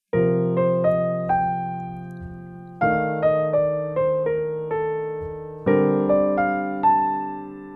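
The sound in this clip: A jazz melodic line over B flat major, descending through the scale and arpeggios as a steady run of clear, pitched notes that each decay. Heavier accented attacks come roughly every three seconds. No voices.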